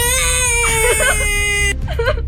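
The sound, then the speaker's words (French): A sound effect of a girl crying plays by mistake: a loud, high, sustained wail with strong harmonics that breaks off, followed by a shorter sobbing cry. “C'était une fille qui pleure.”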